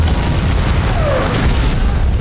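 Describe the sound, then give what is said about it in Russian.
Loud explosions in a film battle scene, with smoke from the blasts covering a fortress and a stable burning, merge into a steady, heavy low rumble with no clearly separate blasts. “Дым от разрывов заволакивает крепость.”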